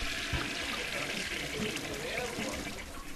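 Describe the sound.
Water pours steadily into a bucket as it is filled, making a continuous, even rushing splash that stays at a constant, moderate level throughout.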